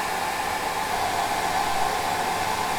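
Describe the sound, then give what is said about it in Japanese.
A hair dryer blows steadily and evenly, drying the front bangs against the direction they tend to part, with a constant airy whoosh and no talk. “まず髪を乾かすときに真っ先に前髪を乾かすの。分かれちゃう方向と逆に。”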